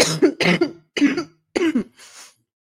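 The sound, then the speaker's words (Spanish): Coughing from a person with a cough: several harsh, throaty bursts in a row, the last one fainter and breathier. “si se dan cuenta, yo con la tos, miren.”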